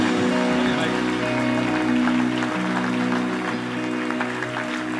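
A church audience applauds at a Sunday morning service to welcome the pastor: dense, steady clapping that holds at an even level throughout.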